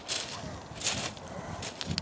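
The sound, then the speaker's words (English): Footsteps climb stone steps, a few scuffing, crunchy treads in a slow, even rhythm. “I am walking up stones now, so apologies for that.”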